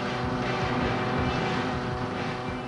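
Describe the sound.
Steady droning engine noise from the racing video game Gale Racer, a continuous, even roar that holds without a break for the whole short stretch.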